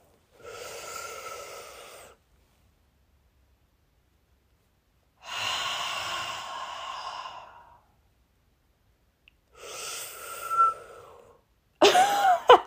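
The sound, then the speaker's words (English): Slow deep breaths come as three long, airy rushes of about two seconds each, separated by silence, followed by a brief sharper burst of breath at the end. “And take a deep breath. Take it with me now.”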